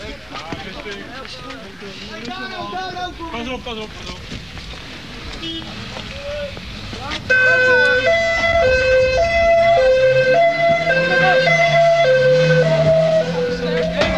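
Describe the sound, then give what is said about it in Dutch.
A police car drives off with its siren wailing in a loud two-tone alternation that starts abruptly midway and runs to the end. People talk over background noise before it begins. “Politie rijdt nu weg om versterking te halen.”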